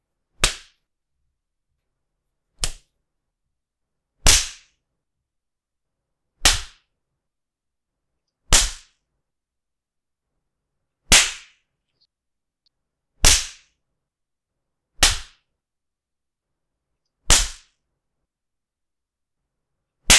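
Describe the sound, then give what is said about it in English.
Sharp spanks delivered by hand, ten loud slaps landing one at a time at steady intervals of about two seconds, each a crisp smack with quiet gaps between and no voices. “For every spank I do, I want to hear a number.”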